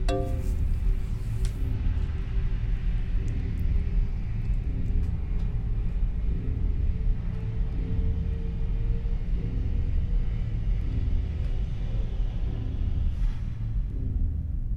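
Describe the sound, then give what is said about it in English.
Spaceship fusion drive rumbling in a video game, a deep, continuous low rumble with a faint airy hiss above it, holding a steady level throughout with no talking. “Fusion drive fueling sequence complete. Warning. Closing fusion drive fueling drop.”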